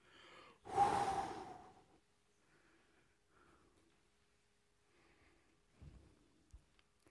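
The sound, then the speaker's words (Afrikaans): A dying man's last breath, Lazarus in an Easter drama: one long, loud breathy exhale that trails off, followed by faint quiet breaths and a couple of soft low thumps. “En hier blaas Lazarus sy laaste asem uit.”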